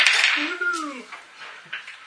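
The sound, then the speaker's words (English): Dice clatter as players roll initiative in a tabletop game session: brief rattly clicks at the start and again near the end, with a voice gliding up and down between them. “And we'll be rolling initiatives. Whee! Clickety click click!”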